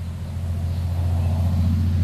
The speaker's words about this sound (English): That is a fire truck that just ran by.